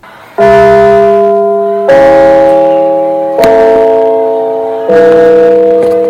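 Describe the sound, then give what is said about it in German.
A school gong rings at a school in Essingen: four evenly spaced strikes, each a loud, rich bell-like tone that hangs on and slowly fades before the next one. “Erinnert ihr euch noch an euren Schulgang? Unserer an der Parkschule Essingen hört sich zum Beispiel so an.”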